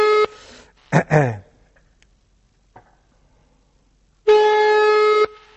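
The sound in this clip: Telephone ringback tone after a number is dialed: a steady buzzing tone, the tail of one at the start and a full tone of about one second near the end, separated by a long gap with a brief other sound.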